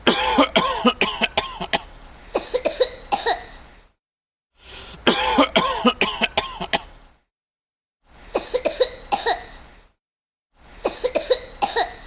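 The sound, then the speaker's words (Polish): Coughing in four separate bouts, each a rapid string of harsh, loud coughs, with short silences between bouts. “Kaszel.”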